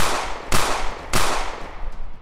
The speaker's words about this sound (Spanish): Empiezas a disparar